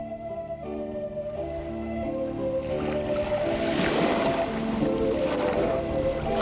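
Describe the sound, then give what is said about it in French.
Calm sea waves wash onto a beach, a soft, steady rushing that swells gradually into a fuller surge after the first couple of seconds and continues without pause. “Sur la plage, la mer est calme.”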